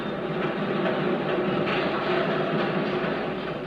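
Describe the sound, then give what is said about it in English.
Busy industrial hum of a sawmill, railroad yard and factories: a steady, dense rumbling drone with broad noise and a faint mechanical texture, continuous and even in loudness, with no voices. “you can hear the busy hum of industry in the sawmill, in the railroad yard, in the factories,”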